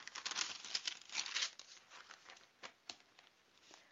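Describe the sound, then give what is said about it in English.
A book page being turned makes a soft, crinkly paper rustle that swells briefly, then thins to a few faint ticks and brushes. No voices. “turning page”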